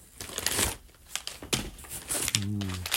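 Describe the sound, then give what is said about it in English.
Crinkling brown protective paper as a big box of trading cards is unboxed. Irregular bursts of rustling and crackling rise and fall over a few seconds. “So it's a big box and it's got my name on it. It's got brown paper.”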